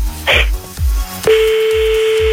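A steady telephone tone sounds as a call is placed for a prank phone call, holding level over a thumping music beat after a brief higher burst near the start.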